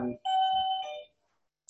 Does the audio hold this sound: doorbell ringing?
yes